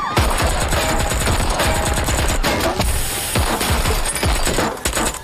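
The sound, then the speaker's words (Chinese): Gunfire erupts in a film assassination scene as drug traffickers open fire: rapid, dense bursts of many sharp shots crackle loudly and continuously, with no voices. “在枪林弹雨中，于顺天虽然逃过一劫，但他的妻子没能躲过毒贩的子弹，倒在了血泊之中。”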